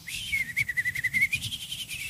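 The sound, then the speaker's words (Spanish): A person whistles to imitate a bird, holding a high, steady tone broken into quick warbling pulses, with faint low background noise beneath. “¿sí te sale a ti el silbido del ave?”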